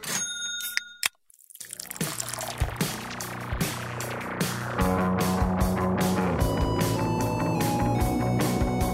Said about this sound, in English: We're going to crack a beer, enjoy it, listen to some voice memos, get back to those folks right here on this episode.